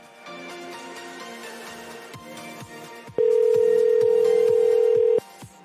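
Telephone ringing on an outgoing call sounds as one steady, low electronic tone lasting about two seconds, loud and alone.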